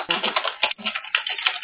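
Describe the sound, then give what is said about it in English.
Rapid typing on a computer keyboard, a fast, irregular run of clattering key clicks with short pauses, moderately loud and heard alone without speech. “I think that was me typing.”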